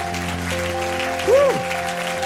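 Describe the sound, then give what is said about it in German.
Applause from a church audience after a sermon, a steady textured wash of clapping beneath sustained organ-like tones, swelling briefly near the end as a sliding tone rises and falls. “Lasst uns ihm nochmal Applaus geben.”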